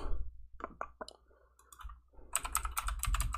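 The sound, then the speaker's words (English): A loud computer keyboard clicks while someone searches through notes: a few scattered keystrokes at first, then a pause, then a dense burst of rapid typing that fills the final second, with no talking. “Yeah, I got a loud keyboard when I'm searching through my notes to find these teams. Sorry about that.”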